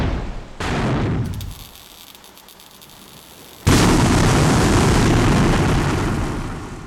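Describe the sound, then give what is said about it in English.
An electrical fuse box struck by a blast explodes in a shower of white-hot metal: a sharp burst of noise, a quieter crackling stretch, then a second, louder explosive roar that sustains and slowly fades. “Alice's stray blast strikes the room's fuse box. It explodes in a shower of white-hot metal.”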